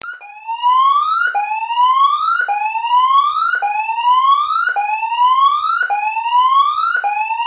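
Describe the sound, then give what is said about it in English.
A tsunami warning siren network test sounds as loud electronic whoops. Each rises in pitch over about a second and repeats in a steady cycle, with no voices. “This is a test of the Northland Tsunami Siren Network. No action is required.”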